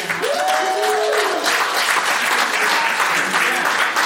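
An audience claps and cheers in a room, dense and steady throughout, with a brief whoop near the start.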